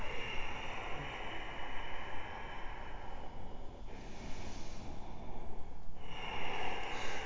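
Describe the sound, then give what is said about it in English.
Breathing through a narrowed throat during a yoga practice makes a steady, airy, hissing rasp. It continues across a few breaths with brief dips between them. “And as you move your breath, start to narrow the back of your throat and create a little heat texture.”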